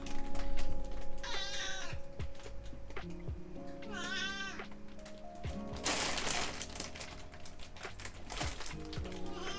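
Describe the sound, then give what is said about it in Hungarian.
A cat meows sadly, giving two long, wavering, plaintive cries over a steady humming background, with rustling and a brief burst of noise between them. “Mi baj van, cica? Nagyon-nagyon-nagyon szomorúan nyábogsz itt nekem.”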